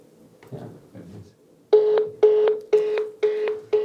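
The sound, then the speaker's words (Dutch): A telephone dialing a number to make a call. A few faint soft tones come first, then five loud, evenly spaced beeps, each with a clear steady pitch. “Dus ik ga nu bellen en ik hoop dat hij opneemt.”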